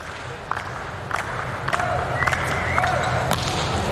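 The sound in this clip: A few sharp thumps stand out over steady arena crowd noise as Mujanović prepares and strikes a volleyball serve during a match.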